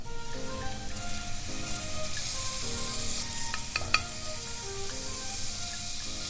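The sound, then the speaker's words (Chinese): Shiitake mushrooms sizzle in a pan with garlic over low heat. A steady, even hiss of frying runs throughout under soft background tones, with a brief clink near the middle. “接着呢我们就要下这个香菇啦。”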